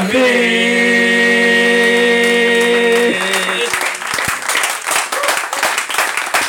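Congregation applauding in a church: a sustained musical chord rings and then cuts off, giving way to loud, dense, continuous clapping from many hands that carries on to the end.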